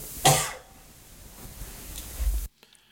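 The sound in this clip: A single sharp cough from a person during an interview conversation, followed by low rumbling background noise that stops abruptly near the end.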